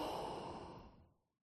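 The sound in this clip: A calm, slow exhale during guided relaxation breathing, one soft, faint, airy breath out that gradually fades into silence, heard alone without talk.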